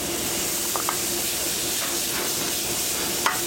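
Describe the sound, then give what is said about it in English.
Chopped onions and garlic sizzle in a saute pan of hot cooking oil and butter, a steady, even hiss running throughout with a few faint ticks and one brief pop near the end. “We're just going to saute it till it starts to stick a little bit.”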